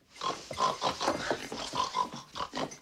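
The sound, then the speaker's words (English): A woman imitates a pig with a rapid run of loud, snorting oinks, many grunting bursts packed closely together and continuing through the whole clip. “Annie oinks at Paul and chases Misery out of the room.”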